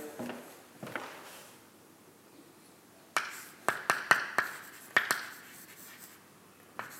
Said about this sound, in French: Euh, je vais écrire